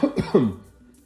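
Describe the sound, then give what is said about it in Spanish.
A few harsh coughs in quick succession, the last one loudest and trailing off, from a person with lower back trouble, with no other talk. “voy a toser”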